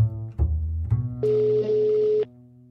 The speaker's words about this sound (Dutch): Laat ik haar bellen.